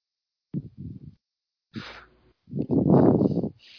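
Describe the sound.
A small dog snores in a few rough, breathy snorts separated by short pauses, the last one longer and louder, with no talking.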